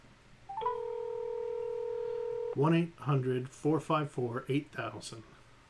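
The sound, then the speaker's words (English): A telephone keypad tone plays on speakerphone as a number is dialed: one sustained electronic dual-pitch beep lasting about two seconds, followed by a voice talking. “I'll just go ahead and type it in here. Dial it. 4, 5, 8, dial it on speakerphone”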